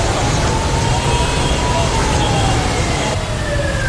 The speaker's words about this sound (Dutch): We horen sirenes in Hanoi. En dat waren de sirenes van de delegaties van de beide leiders.